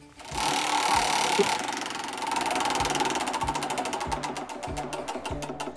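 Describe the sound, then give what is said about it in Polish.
A large game wheel spins in a studio, giving off rapid, rattling ticks over a steady mechanical whir. The clicking stays loud and even throughout, with no voices. “Uwaga, oddalam się od stołu w studiu, bo czas zakręcić wielkim wniesionym do studia przez Karolinę i Michała kołem.”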